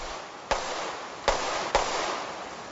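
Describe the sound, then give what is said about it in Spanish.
Three sharp gunshots from a firearm crack out over a steady background hiss, the first standing alone and the last two coming closer together. “Desobedece la orden de no emplear armas de fuego.”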